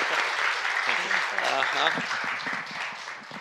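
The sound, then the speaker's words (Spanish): Applause from a church audience welcoming a pastor to the front, a steady wash of many hands clapping throughout, with a voice briefly speaking over it midway. “Recíbanlo con un aplauso.”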